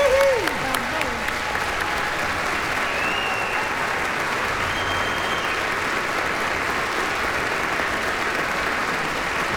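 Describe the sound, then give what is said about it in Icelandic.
Sustained applause from a concert audience for the conductor and the Iceland Symphony Orchestra: a dense, even clatter of many hands, loud and steady from start to finish. “Við skulum gefa hljómsveitarstjóranum okkar og Sinfóníu hljómsveit Íslands sérstaklega gott klapp.”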